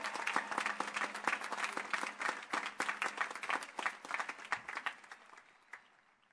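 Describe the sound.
A graduation crowd applauds the class of 2017 with a thick, sustained wash of many clapping hands that pulses slightly, then thins and fades toward the end.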